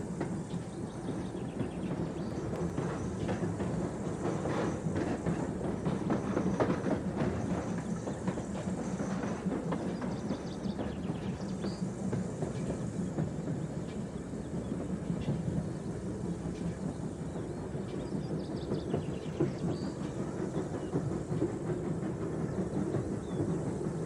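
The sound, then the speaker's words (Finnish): Low, steady rumble of a locomotive moving along the tracks of a railway yard, quiet and continuous throughout with no distinct breaks. “Semaforit opastavat veturin oikeille raiteille ratapihan lukuisilla reittivaihtoehdoilla.”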